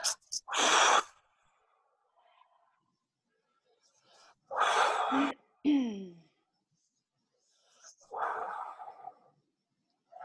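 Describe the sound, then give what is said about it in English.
Deep breaths taken one after another on request, a few loud, noisy inhale-exhale bursts separated by quiet pauses, with no talk over them. “So go ahead and just take 3 deep breaths for me,”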